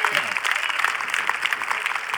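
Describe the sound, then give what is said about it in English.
A church audience claps its hands during a worship service, giving dense, continuous applause with rapid overlapping claps at an even level for the whole short stretch. “Somebody give a covenant-keeping God a big hand clap.”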